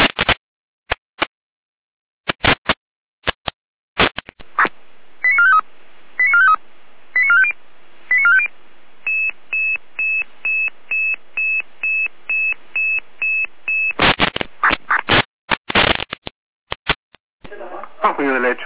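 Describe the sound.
Emergency dispatch alerting tones on a radio channel in Jena: a few clicks, then short groups of beeping tones, a long run of evenly spaced beeps, and more clicks and burbling noise at the end.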